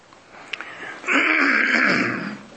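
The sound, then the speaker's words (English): A person clears their throat with a rough, raspy rasp that lasts over a second, after a quiet moment broken by a couple of faint ticks. “I've got my throat where it won't hardly clear this morning.”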